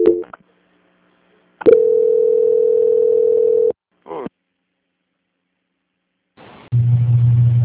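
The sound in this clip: Telephone line tones during a call transfer: a short blip, then a steady mid-pitched tone lasting about two seconds, a brief chirp, and finally a lower buzzing tone, with no talk.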